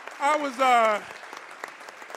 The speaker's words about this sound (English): Although representatives gave him a round of applause, Colvin was uncomfortable getting a send-off just yet.